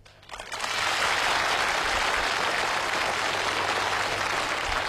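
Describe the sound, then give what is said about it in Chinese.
Audience applause rises quickly after a brief quiet start, then settles into a dense, steady wash of clapping that stays loud and even to the end, with no voices over it. “还鼓掌”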